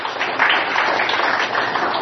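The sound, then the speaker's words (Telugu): Audience applause at a talk, a steady, dense wash of clapping that holds at an even level for about two seconds with no voices over it. “అది చప్పట్లు కొట్టాలి ఒకసారి.”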